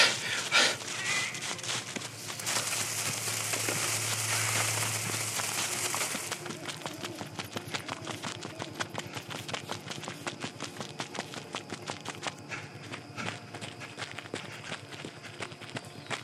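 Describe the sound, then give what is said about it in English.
Footsteps of people running on foot through thick forest brush, a dense stream of rapid crunching and rustling steps that keeps a fairly steady pace from start to finish. “Is this even a trail anymore? Or are we just running directly through the forest? It will clear. Just keep running. Come on. Push through it and dig in.”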